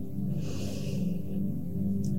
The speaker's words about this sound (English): Take a deep breath in